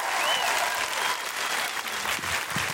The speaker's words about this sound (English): Please, put your hands together, make enormous woohooing noises, and break laws if necessary to welcome to the stage Mae Martin!